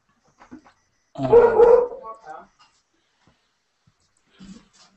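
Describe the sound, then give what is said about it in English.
A dog barks in one loud, drawn-out burst followed by a shorter, softer call, with a faint yelp later, amid people talking. “No, that's my dog. I'm sure I heard that.”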